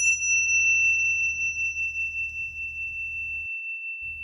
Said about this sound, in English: What you're going to hear to notate the beginning of a major section is the Tibetan bell, which sounds like this.